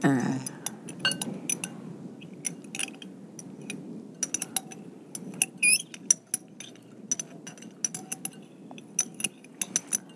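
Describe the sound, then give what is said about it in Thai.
A spoon stirs an SLS liquid soap mixture, clinking lightly and irregularly against its container in many quick metallic taps over a soft, steady rustle. “ต้องค่อยๆคน ใช่ค่ะ ไม่งั้นจะเป็นฟองนะเพราะว่า SLS นี่มันเป็นตัวให้ฟองนะคะเป็นสารชะล้างนะคะเอาใช้ช้อนดีไหม”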